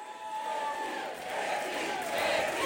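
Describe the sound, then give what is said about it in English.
Crowd cheering at a 2024 New Hampshire campaign rally in Exeter, a dense, continuous roar of many voices that holds steady and swells slightly toward the end. “What a crowd this is.”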